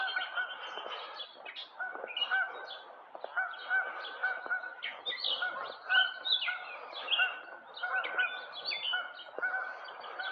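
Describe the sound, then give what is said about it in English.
Geese honking by a river, with many loud, overlapping calls in an unbroken, restless chorus for about ten seconds and no talking. “These are quite annoying geese. I'd like to have a bench here to sit on the river.”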